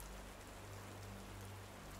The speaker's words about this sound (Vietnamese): Tiếng mưa đã che giấu đi tiếng bước chân.